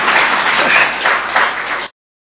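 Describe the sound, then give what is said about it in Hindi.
Audience clapping for the mothers: dense, even applause at a steady loud level that stops abruptly near the end, leaving silence. “देखो माताएं को लोग ताली बजा दो माताओं के लिए।”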